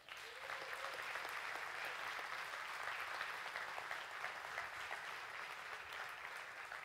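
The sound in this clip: An audience applauds a guest coming on stage at a school district event: dense, continuous clapping that stays steady and fairly faint throughout, with no voices over it.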